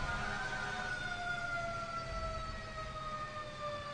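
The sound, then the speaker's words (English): Emergency vehicle sirens wail continuously, steady, loud and sustained over a low rumbling background throughout. “pause for these emergency vehicles”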